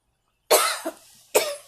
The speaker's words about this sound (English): The reason I'm coughing